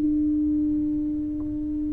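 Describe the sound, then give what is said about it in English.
A foghorn sounds one steady, unwavering low tone that holds at even loudness for about two seconds before cutting off. “When the foghorn sounds, it's in a time when you're of limited visibility,”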